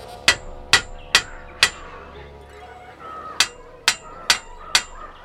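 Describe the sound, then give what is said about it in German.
A hammer strikes metal cage bars eight times, each a sharp, ringing clank with a short metallic decay: four evenly spaced blows, a pause of nearly two seconds, then four more in the same steady rhythm. “Den Hammer benötige ich zu einem anderen Zweck. Zu diesem.”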